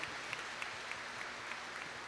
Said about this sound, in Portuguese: Uma salva de palmas aos nossos irmãos bispos que vieram